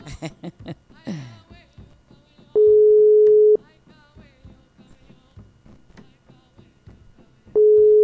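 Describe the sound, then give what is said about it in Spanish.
Telephone signal tone while a call is being placed: a steady, mid-pitched electronic beep about a second long, a long silence, then the same tone returning, with soft voices underneath. “estamos llamando.”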